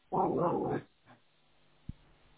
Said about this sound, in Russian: Отойди от собаки.